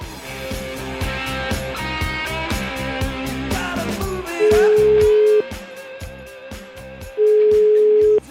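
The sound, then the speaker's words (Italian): Ringback tone of a telephone call being placed: two long, steady, loud tones on the line, each about a second, separated by a gap, playing over a busy background music bed. “chiamiamo una signora qualsiasi, un indirizzo qualsiasi di quelli che abbiamo preparato qui.”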